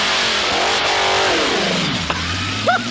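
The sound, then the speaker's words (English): Car engine bogging on a hole shot launch at a drag strip: a loud straining drone whose pitch sags and drops as the revs fail to climb, settling into a low, labouring growl. “the way this song starts is the world's worst bog hole shot at the drag strip. Here we go. Listen.”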